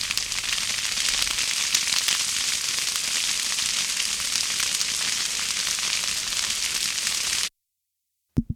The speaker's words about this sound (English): The fire fades out.